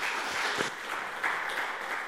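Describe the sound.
An audience applauds to welcome a speaker at a morning gathering, a steady wash of clapping at moderate, even loudness from start to finish.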